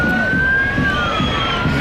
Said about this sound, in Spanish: Sí, ese es el sonido de la manifestación que acababa en el Arco de Moncloa.